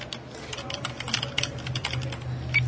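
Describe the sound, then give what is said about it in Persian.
A clerk types on a computer keyboard while searching for flights: many quick, light keystrokes in an uneven run over a low steady hum. “متصدی توی کامپیوتر جستجو میکنه.”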